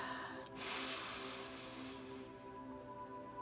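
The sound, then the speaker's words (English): A deep inhale through the nose, a soft rushing hiss of air lasting about two seconds, faint and on its own. “I have learned if I inhale through my nose”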